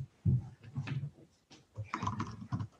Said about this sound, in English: If I typed my name right, it would probably be more helpful.